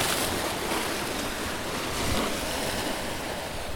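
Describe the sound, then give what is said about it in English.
Waves lapping in San Francisco Bay make a continuous, even wash of watery hiss with steady wind noise mixed in. The sound holds constant throughout, with no distinct breaks or louder surges. “Just the sound of the bay.”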